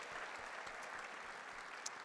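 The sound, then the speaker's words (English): A church audience gives a round of applause. The clapping is steady and fairly faint, holding at an even level throughout. “give the Lord a big round of applause”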